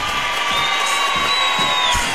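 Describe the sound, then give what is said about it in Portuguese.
Crowd cheering and applause played on a late-night radio call-in show: a continuous, loud wash of noise with a thin whistled tone running through it. “Olha aí, palmas para ele de novo”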